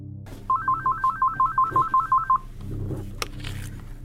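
Telephone keypad tones on a call to a prison in Oklahoma: a quick, even run of many short, clear beeps, then low background noise with a brief click.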